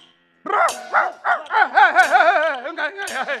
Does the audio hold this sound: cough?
no